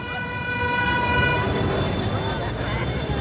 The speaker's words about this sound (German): Für die meisten ist das hier die Hölle. Lärm, Schlaglöcher, schlechte Luft. Die vielbefahrenen Megastraßen im Zentrum von Mexiko-Stadt haben wenige Fans.